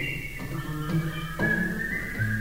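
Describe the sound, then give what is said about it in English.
A person whistles a tune, bright sustained notes that shift in pitch from phrase to phrase over about two and a half seconds, steady and fairly loud with no talk. “Let's whistle.”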